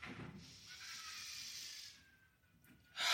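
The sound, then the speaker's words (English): A slow, deep breath drawn in during a guided relaxation, a soft airy hiss that swells and holds for over a second, faint and without talk. “take a nice deep breath in”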